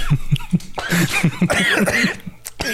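Someone coughs hard after inhaling a sip of orange-flavored water. There are many rapid, harsh coughs in a loud, irregular fit, mixed with strained, voiced gasps.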